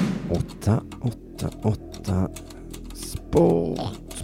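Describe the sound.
Fingers type on a polished computer keyboard, giving sparse, irregular clicks and clacks in short bursts. A voice speaks over the keystrokes.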